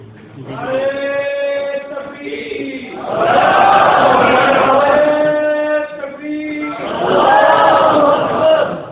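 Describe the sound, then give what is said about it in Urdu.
A crowd chants a slogan in the dark after a power cut, loud unison voices swelling in repeated surges, with two strongest bursts separated by a brief dip. “یہ کس خوشی میں نعرہ ہے؟ یہ عجیب ہے, بھی اندھیرا ہوا ہے تو نعرہ شروع کر دی.”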